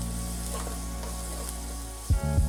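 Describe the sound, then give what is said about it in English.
Minced garlic and black garlic sizzle in a pan with onions while being quickly stirred, a steady hiss broken near the end by a couple of louder scraping stirs. “Let's add our minced garlic and our black garlic. And quickly mix it together. We just want that garlic to be nice and fragrant.”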